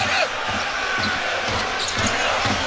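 A basketball is dribbled up the court during a game, giving a steady series of dull, evenly spaced bounces under constant crowd noise in the arena.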